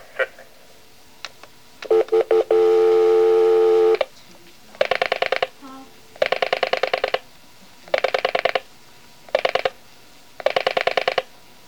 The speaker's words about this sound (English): Okay, go ahead, dial the number.